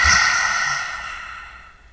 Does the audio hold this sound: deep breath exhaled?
yes